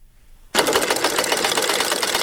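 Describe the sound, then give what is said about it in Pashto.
A sewing machine runs in an embroidery class where older women sew with care. It starts suddenly after a short quiet moment and then keeps a fast, steady, loud stitching whir. “د ګلدوزی په نوم په یوه واړه ټولګي کې ناستې د پاخه عمر ټولې ښځې په دقیق ډول ګنډل کوي.”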